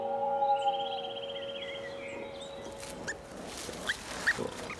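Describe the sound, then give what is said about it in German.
Newborn wild boar piglets in a warm nest of twigs give thin, high squeaking and chirping calls over a steady low drone, with a few faint clicks and squeaks later on. “Davon spüren diese neugeborenen Frischlinge in ihrem warmen Nest nicht viel.”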